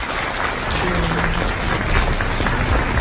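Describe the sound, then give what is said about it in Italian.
An audience applauds a guest with dense, steady clapping that holds at an even loudness from start to finish, with no voices standing out. “L'applauso, tutto per te, complimenti, grazie.”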